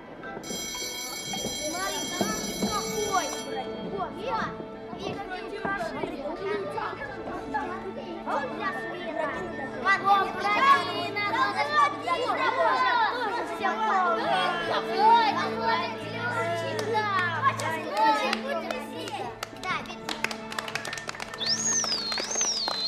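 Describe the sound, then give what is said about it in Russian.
The third bell rings in a theatre before a play begins, a bright, continuous electric ringing lasting about three seconds, followed by a busy hum of audience chatter and voices filling the hall. “Звенит третий звонок, и мы входим в зал.”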